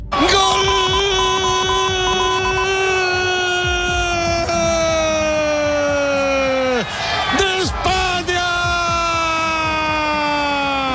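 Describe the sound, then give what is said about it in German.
A crowd in Spain celebrates the country's football World Cup final win at night. A loud, sustained, horn-like wail dips sharply twice, with shouting voices mixed in throughout. “Ja, so klang das in der Nacht bei den spanischen Kollegen. Spanien ist Fußball-Weltmeister.”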